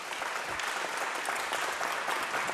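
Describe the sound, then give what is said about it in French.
A live audience at Chantilly castle applauds with fairly soft, even clapping that stays steady from start to finish, with no voices over it. “Et nous sommes en public, chère Marlène. Vous allez entendre d'ailleurs le public de Chantilly aujourd'hui.”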